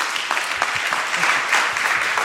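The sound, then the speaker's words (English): Audience applause after a welcome at a church gathering: dense, steady clapping from a crowd for a couple of seconds, loud and continuous with no talk over it. “Let's give Dan a warm, warm round of applause.”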